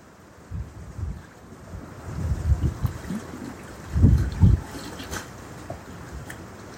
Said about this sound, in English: And the wind is energizing the air. And the water's in the air.